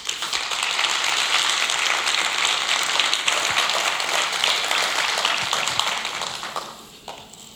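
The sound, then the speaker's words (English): An audience applauds as two guests walk up to the stage. The clapping stays dense and sustained, then tapers off in the final moments. “So would you guys welcome Mark and Patty as they come up to the stage?”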